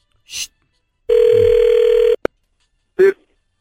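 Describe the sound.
Telephone ringback tone on an outgoing call: one steady, low-pitched ring lasts about a second, then a sharp click as the line connects, followed by a short burst of a voice.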